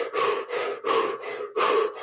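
Rapid, deep breathing in a hyperventilation demonstration: a quick, even run of loud, airy inhales and exhales, each rushing breath sharply separated from the next, with no talk over it.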